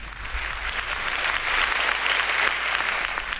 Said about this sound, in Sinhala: හොඳ අත්පොල් සම්ප්‍රසාදයකින් ආරාධනා කරමු